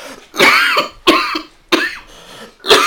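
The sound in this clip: A person coughs four times. Each cough is a loud, sharp burst that trails off into a rough, throaty rasp, and there is no talk.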